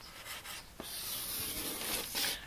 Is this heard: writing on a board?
yes